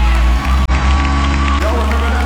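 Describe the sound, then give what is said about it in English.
Church audience clapping and cheering in praise, a loud, dense mix of hand claps and raised voices that carries on throughout. “Everybody clap your hands and glorify him.”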